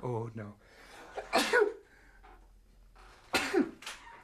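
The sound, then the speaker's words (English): Two sharp, breathy sneezes burst out about two seconds apart, each loud and sudden against a quiet background, after a moment of speech at the start. “I hate sneezing on the air. Sorry, folks.”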